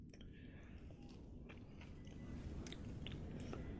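Chewing on a cotton candy Peeps that is dense rather than fluffy, like fiber-filled insulation, with faint, soft, continuous chewing and light crunching throughout and no talk.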